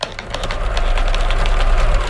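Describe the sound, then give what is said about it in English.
A sewing machine runs while sewing cloth masks, making a continuous, busy mechanical whir with quick, regular clattering ticks throughout. “When I look at this sewing machine, especially in these difficult days, I think of what this sewing machine,”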